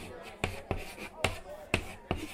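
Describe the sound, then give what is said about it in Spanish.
Chalk taps against a classroom blackboard as test questions are written: five sharp, crisp knocks at an uneven pace, each followed by a faint scraping stroke, with soft room noise in between. “Que les voy a escribir las preguntas en el pizarrón.”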